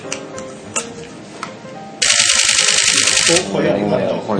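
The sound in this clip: A camera shutter is pressed on a body set to DX crop mode with no lens attached. A few sharp single clicks come first, then a loud, dense mechanical rattle lasts over a second. A voice talks through parts of it.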